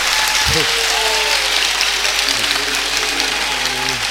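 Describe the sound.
An audience claps at a hymn recitation, a continuous, dense patter of many hands. A voice rises faintly above it partway through.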